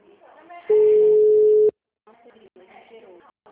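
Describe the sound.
A single telephone ringback tone as someone places a call: one steady, mid-pitched beep lasting about a second. Talk comes before and after it.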